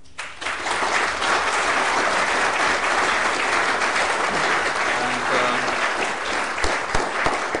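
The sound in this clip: Audience applause welcoming guests at a discussion event on global trade: dense, steady clapping from a large crowd, loud and sustained throughout without a break.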